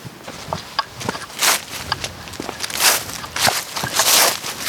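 Footsteps of people walking outdoors along a wooded path with ivy-covered trees, a series of irregular soft steps at an uneven pace, alone with no talk.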